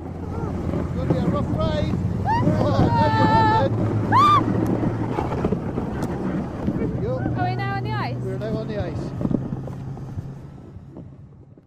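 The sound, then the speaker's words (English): Snowmobile ride over polar ice, a loud continuous engine drone buried in heavy wind rush, with brief voices calling out above the noise now and then. “But first, she had to survive the skidoo ride.”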